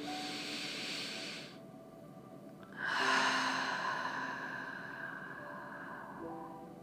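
Slow breaths drawn in through the nose: two long, airy hisses, the second louder and swelling before it fades, over a soft steady tonal drone.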